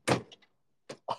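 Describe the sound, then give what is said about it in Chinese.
A small door swings shut with a solid thunk and light rattling clicks, followed by two more short, muted knocks, all quiet and brief with silence between. “我们打开这个神秘的小门，你知道这个门里面都蕴藏着什么吗？我们打开灯，把门一关”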